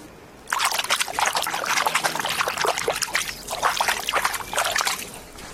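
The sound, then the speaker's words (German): Water trickling and lapping at the shore of the Krenteich pond in Lübeck makes many small, irregular splashes and gurgles in a steady, bright stream after a quiet start. “So klingt der Krenteich und ich weiß auch, was er gerade gesagt hat.”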